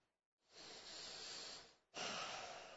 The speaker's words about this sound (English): Everybody take a deep breath right where you are.